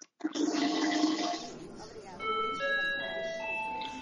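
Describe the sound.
A toilet flushes in a loud, rushing burst of water that fades after about a second, followed by bright, sustained high tones that linger to the end.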